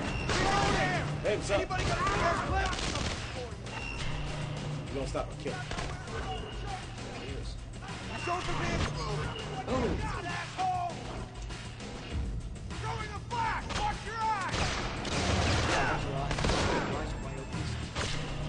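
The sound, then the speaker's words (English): Video game gunfire crackles in rapid bursts of many shots, loud and dense, running under excited talk throughout. “It's weird how when you do the execution thing, it's a one-shot kill, but when you're just trying to shoot him, it takes like 12 bullets to the face.”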